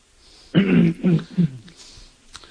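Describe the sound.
Throat clearing by a man: three harsh, gravelly bursts in quick succession, each a little shorter than the last, followed by faint, scattered small noises.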